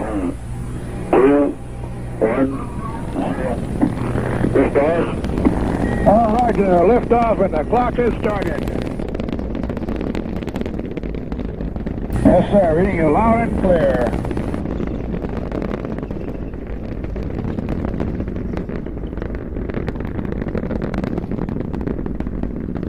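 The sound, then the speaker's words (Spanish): The Mercury-Redstone 3 rocket lifting off with the Freedom 7 capsule: a continuous deep, crackling roar that persists throughout, with voices speaking over it in short bursts. “9:43 am hora del este. Mercury Redstone 3 despegó.”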